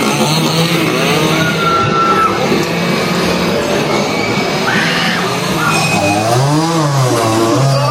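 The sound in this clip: Chainsaws revving at a Texas Chainsaw Massacre haunted house at Halloween Horror Nights on opening night: a continuous, loud, buzzing engine roar whose pitch repeatedly swells and falls as the saws are throttled up and down.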